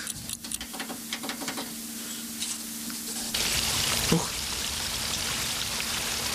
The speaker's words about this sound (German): Das ist doch spannend. Da fließt Wasser eine schräge Ebene runter.